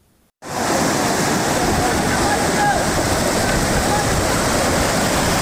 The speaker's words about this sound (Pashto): د نړۍ ولسوالۍ و اسدآباد ترمنځ د سونک خوړ دی چې په کې تیر شوی سړک اوبو وړی دی.